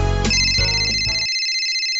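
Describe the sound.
Electronic telephone ringtone sounding before a call in a radio advert for a market: layered bright tones that thin out after a second, leaving a steady high ringing tone alone.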